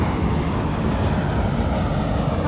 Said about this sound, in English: Sorry about that. There was an airplane.